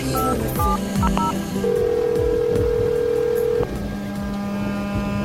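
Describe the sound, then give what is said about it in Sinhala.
Touch-tone dialing on a landline telephone as a girl places a call: a quick run of short keypad beeps, then a long steady electronic tone and a lower sustained tone over a rumbling background. “ඒ නිසාම තමයි කෙල්ල land phone එක ගෙනත් විනෝලිට call එකක් ගත්තේ.”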